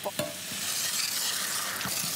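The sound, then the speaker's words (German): Sizzling of food frying in a pan as liqueur is added: a loud, steady hiss, with a few brief stirring scrapes near the start and end. “Die können natürlich ihr Aroma jetzt durch die Hitze noch mal so richtig abgeben. Ich gebe jetzt auch schon mal immer so ein bisschen Likör dazu.”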